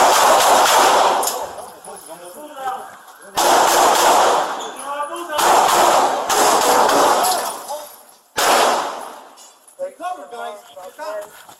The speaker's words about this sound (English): Shots fired.